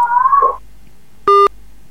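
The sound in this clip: A single short, loud electronic beep as a telephone call drops during a call-in, preceded by a brief wavering tone, then quiet line hiss.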